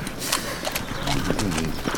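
A horse's hooves clip-clop unevenly on the ground as it moves, against a busy, noisy background.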